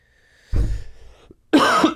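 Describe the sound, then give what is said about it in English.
A person coughs and clears their throat in two rough bursts about a second apart, the second harsher and brighter than the first. “Excuse me, I have something in my throat.”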